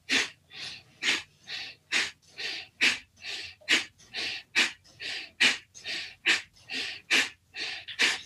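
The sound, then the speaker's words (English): Forceful exhales through the nose during a breathing exercise with fingers spread and pulled down, repeated as many sharp, hissing puffs in a fast, even rhythm of roughly two per second, alone with no talk. “And then you should breathe out through the nose. By doing that movement, you put the pressure on your lungs to breathe out. So you get this.”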